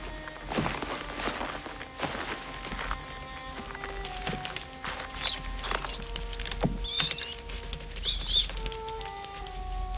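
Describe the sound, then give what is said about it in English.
Rats scurrying down a flight of stairs: a busy patter of many light, quick scratches and taps from small feet that runs throughout, with a few sharp high chirps near the end. “several rats scurrying down the stairs”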